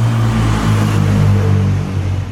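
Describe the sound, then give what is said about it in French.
Stream of cars moving along an avenue with traffic lights in Saint-Laurent-du-Pont: a steady, loud low engine hum and rumble that stays fairly even throughout, with no voices. “À ma droite, un flot de voitures circule au rythme des feux sur l'avenue Jean-Jaurès.”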